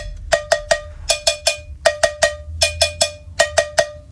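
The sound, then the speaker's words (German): Cowbell played in a pop song: many sharp, bright metallic hits in a repeating syncopated pattern, loud, over a faint low backing. “Habt ihr schon mal ein Instrument namens Kuhglocke gehört? Nein, ich auch nicht. So klingt's.”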